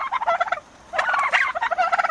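Turkey gobbling in rapid warbling bursts, heard alone: one fast run, a short pause, then a longer, louder run of quick throaty pulses.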